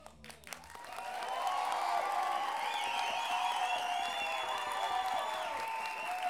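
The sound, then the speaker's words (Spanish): Audience applause at a live evening show with an orchestra: after a quieter first second, a dense wash of clapping and crowd noise swells and holds loud and steady to the end. “Gracias por esos aplausos espontáneos para la gente relacionada.”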